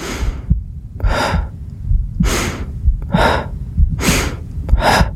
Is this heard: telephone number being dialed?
no